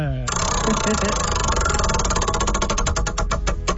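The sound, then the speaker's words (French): A prize wheel spinning: the pointer ticks rapidly at first, and the ticks grow slower and more widely spaced as the wheel loses speed, over a steady background din. “OK, on va tourner la roue.”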